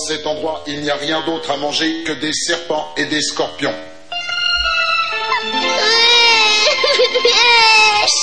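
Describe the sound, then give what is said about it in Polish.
A child cries in an animated series, a long, high, wavering wail filling the second half after a stretch of talk. “Przestań płakać.”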